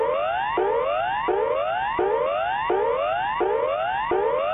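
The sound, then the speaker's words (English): A public address system in a city centre sounds the standard emergency warning signal during a test. Loud rising tonal sweeps repeat steadily, each lasting well under a second. “The next sound you hear will be the standard emergency warning signal.”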